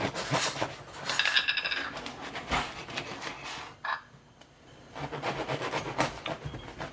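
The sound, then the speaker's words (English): A knife saws through a crusty fresh sourdough loaf in a series of faint, scratchy, crunching strokes with brief pauses between them. “I'm going to cut the bread while you're doing that. We got a nice, crusty, fresh loaf of sourdough.”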